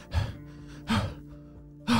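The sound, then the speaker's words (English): Heavy, gasping breaths from boys out of breath after running fast and far up a hill: three loud breaths separated by short pauses, with no talk. “They were out of breath from running so fast and so far.”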